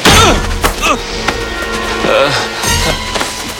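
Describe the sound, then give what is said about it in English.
Heavy punches land in a fight, several dull thuds and sharp whacks striking amid strained voices and scuffling. “Ed arrives and slugs Jeff.”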